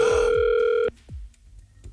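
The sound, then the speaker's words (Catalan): A telephone ringback tone sounds while someone is being called: one steady, loud electronic tone holds for just under a second, then cuts off abruptly, leaving faint low noise and a soft thump. “Sí, marca el telèfon de l'Eulàlia.”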